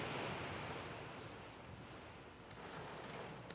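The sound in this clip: Wind blows hard against a gymnasium as a broad, steady rushing noise that swells and eases slightly. It is faint and continuous, with no voices.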